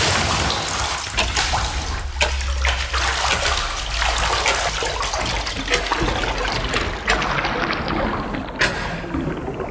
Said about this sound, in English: So we're going wetly into the swim of 1970s culture, and we're going for a time swim. Absolutely. Backstroke.